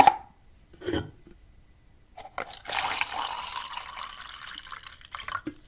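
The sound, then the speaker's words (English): Coffee poured into a cup, a steady trickling liquid stream lasting about three seconds after a few brief scattered sounds, fairly soft and with no voices. “it sounds like a beverage being poured into a cup. Jay Daniels, that is coffee being poured into a cup.”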